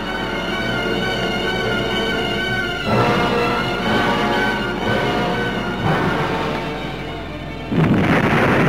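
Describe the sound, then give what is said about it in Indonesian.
Loud, booming explosion effects depict two magical powers colliding: a sustained, resonant roar punctuated by several heavy bursts that each swell in loudness. “Lalu terdengarlah ledakan keras, dua kekuatan berbenturan.”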